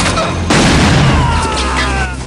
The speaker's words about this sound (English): Forrest has grabbed the gun and shot Stone.